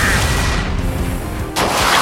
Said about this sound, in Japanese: ルナーキャノン発射